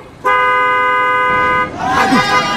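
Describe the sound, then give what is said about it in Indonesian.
A truck blasts a long, loud, steady horn as it passes close to a bus on a bridge across the Madura Strait, followed by rumbling traffic noise and voices. “Aduh, itu hampir menyerempet bis kita ini. Sekar, Bima, kalian tidak apa-apa? Tidak apa-apa ya. Aduh, truk tadi ceroboh sekali,”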